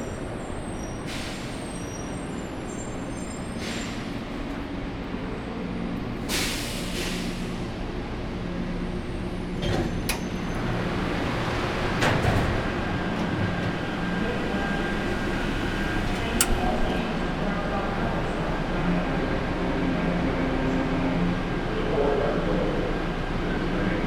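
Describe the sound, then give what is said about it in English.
An airport train arrives at a concourse station with a steady, low rumble. Several sharp hissing bursts, like air brakes, cut through the rumble over about 24 seconds. “A train is arriving. Please keep clear for passengers exiting the train.”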